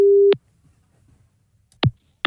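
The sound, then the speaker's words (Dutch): A telephone ringing tone while calling someone: a steady, low, humming tone that stops abruptly, then a quiet gap broken by two short bursts of sound. “Even checken of ik Frans kan bereiken.”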